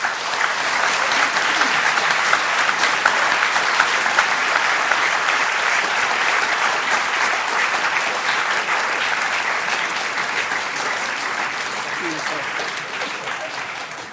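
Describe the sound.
Sustained applause from an audience at the Free Library of Philadelphia, welcoming E.O. Wilson to the stage: a dense, steady wash of clapping for about fourteen seconds that eases slightly toward the end.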